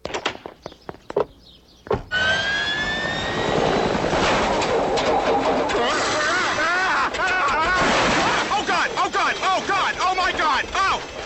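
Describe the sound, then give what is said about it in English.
Helicopter noise bursts in after a few short thumps and becomes a loud, sustained roar with rhythmic chopping pulses. Agitated voices cry out over it in the later part. “Copter.”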